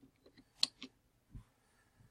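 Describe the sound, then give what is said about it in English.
Faint keyboard clicks as a search word is typed into a PDF after pressing Control F: several soft, irregular keystrokes, one slightly sharper than the rest, with quiet gaps between. “So what I do with the PDF, hit Control F there, so I'll type it in.”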